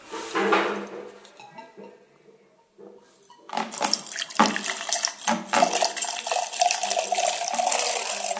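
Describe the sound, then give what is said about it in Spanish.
Cider poured from a height and poured badly, so it lands on cider. A soft trickle first, then a steady, dull splashing stream of liquid falling into liquid, with no glassy ring. “Vemos que cae sidra sobre sidra. Este sonido es malísimo.”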